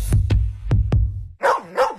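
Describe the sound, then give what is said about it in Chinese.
A dog barks four times in quick, sharp, loud bursts, then gives two higher, drawn-out yelps. “二郎神哮天犬怎么又忘了？”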